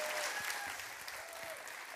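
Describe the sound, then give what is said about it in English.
Applause welcoming a children's pastor at a church service, a steady, fairly faint patter of clapping from the audience throughout. “Would you please put your hands together and welcome Pastor Lucas?”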